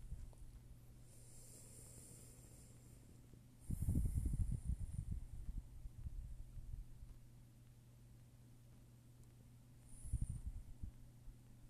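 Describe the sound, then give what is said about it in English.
Deep breaths taken during a mindfulness exercise, faint and airy, with a long rushing breath in the middle and a shorter one near the end, over quiet background hiss. “To get started, take 5 deep breaths.”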